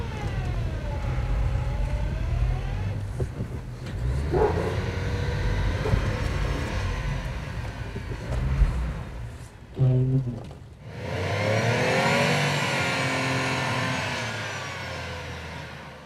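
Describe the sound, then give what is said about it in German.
A delivery lorry with stuck tyres rocks forward and backward, its engine revving loudly and continuously, the pitch of the revs swelling and dropping again and again. “Doch kurze Zeit später kommt selbst der gelernte LKW-Fahrer an seine Grenzen. Gegen festgefahrene Reifen hilft nur viel Vor- und Rückwärtsrangieren.”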